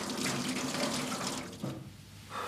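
Tap water runs steadily into a sink while dishes are washed, producing a continuous rushing hiss that softens briefly near the end and then swells again.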